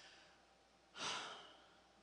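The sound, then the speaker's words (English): A slow, deep breath drawn once: a single soft, airy rush that swells and fades within about half a second, faint and alone against a quiet hiss. “Can you just breathe with me real fast?”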